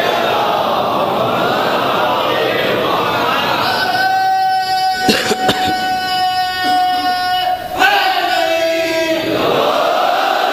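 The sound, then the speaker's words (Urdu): Crowd at a religious gathering reciting salawat together, loud massed voices chanting in unison, followed by a more sustained, tonal stretch of voices. “خیر، ایک صلوات اور بھیج دیجیے۔”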